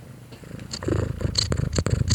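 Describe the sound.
A contented cat purring on someone's lap: a steady, low rumbling throb with regular pulses, loud and alone with no voices.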